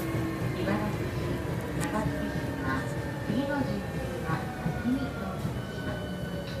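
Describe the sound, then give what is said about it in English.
Train riding the rails in Osaka, a continuous loud rumbling roar with a voice faintly audible over it. “I'm riding the rails here in Osaka”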